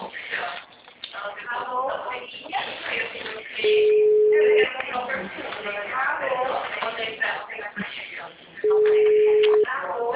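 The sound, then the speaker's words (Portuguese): Telephone busy signal on a call: two steady low tones, each about a second long, sound under continuous talk. “Alô, boa tarde, o número está ocupado.”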